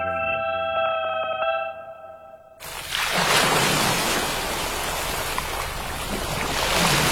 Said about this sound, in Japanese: ザバン、ザバン。海が光っている。